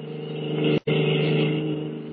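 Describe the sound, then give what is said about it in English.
A stolen car speeding away from a naval base, its engine a steady, loud droning hum with rich harmonics that holds throughout, broken only by a brief cut. “At the moment, they are speeding away from the naval base in a stolen car.”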